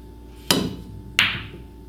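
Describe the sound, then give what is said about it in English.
Two sharp clacks from a pool shot onto the eight ball, which then misses the pocket. The first crack is abrupt and loud, and the second, a moment later, is just as crisp, with a brief ringing tail after each. “But alas, that eight ball did not quite make it in.”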